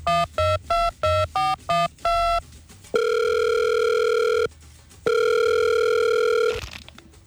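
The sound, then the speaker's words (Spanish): Telephone dialing and ringing on a call: a quick run of short, sharp keypad beeps, then two long, steady ringing tones separated by a brief pause, with no voices. “Llamando a Infantino.”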